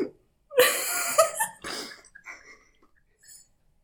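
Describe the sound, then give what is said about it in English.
Wheezing breath from a person: a loud, rasping, breathy gasp with harsh, noisy bursts that trails off into fainter, shaky breaths and quiet wheezes. “I'm just wheezing.”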